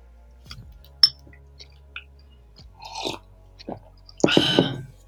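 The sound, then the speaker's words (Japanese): Chewing and crunching as two people eat breakfast. Sparse, quiet bites and soft clicks lead up to a louder crunchy burst near the end. “今日の朝食いただきます。いただきます。”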